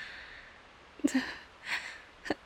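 Three short, quiet sniffles from someone whose allergies are acting up around flowers, spaced irregularly over near-silence.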